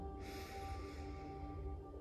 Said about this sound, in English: take a deep cleansing breath in